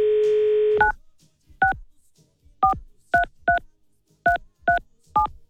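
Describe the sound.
A telephone number dialed on a touch-tone phone: a steady dial tone cuts off into a run of short, clear two-note beeps at uneven spacing, heard alone without talk.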